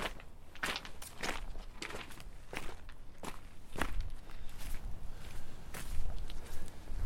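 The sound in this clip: Footsteps walk through a forest along a path, forming a steady series of soft, crunchy steps at an even walking pace. No voices are heard.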